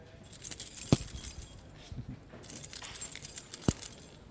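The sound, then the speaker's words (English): A bunch of keys being jangled: bright, rattling metallic clinks in irregular bursts with a couple of sharper knocks, fairly faint overall. “Did anyone ever hear a bird singing like that? The jangling of a bunch of keys.”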